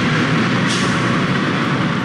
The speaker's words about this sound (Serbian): Autobus sa oko 80 izbjeglih iz država Bliskog istoka zaustavlja se na oko 4 km od graničnog prelaza Horgoš.